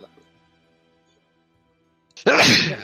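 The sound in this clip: A single loud, sharp sneeze bursts out near the end after a long stretch of near silence broken only by faint, quiet sounds.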